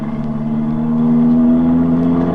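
A car engine runs hard as the car drives off fast. Its steady, mid-pitched droning hum holds level and swells slightly louder partway through, with no voices.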